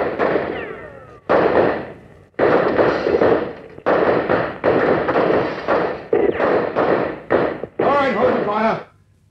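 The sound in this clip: Gunfire in a radio drama: a string of loud, sustained crackling bursts separated by short gaps, with a shouting voice rising over the final burst.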